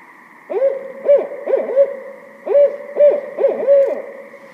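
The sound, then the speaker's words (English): Barred owl giving its who-cooks-for-you call: two rhythmic phrases of several deep, arching hoots, loud and clear with nothing else heard. “So the most common call is that "Who cooks for you? Who cooks for you?" Call.”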